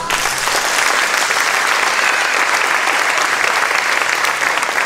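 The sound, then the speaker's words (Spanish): Sustained audience applause, dense and loud throughout, with many hands clapping at once in an even roar and no gaps or voices standing out. “Oye, denle un aplauso a Jesús.”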